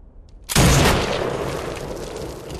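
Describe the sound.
A modern assault rifle fires a single shot, a sharp loud crack that trails off in a long fading tail, heard alone without talk.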